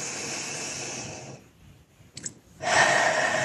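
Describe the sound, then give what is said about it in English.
Deep breathing during a guided pause in a worship service: a long, airy breath, a quiet gap with a faint click, then another louder, breathy stretch. No voices. “So if you would take a few deep breaths with me,”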